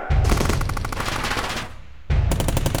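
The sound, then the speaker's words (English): Loud machine-gun fire in two sustained bursts of rapid shots, with a short lull between them. “Open fire!”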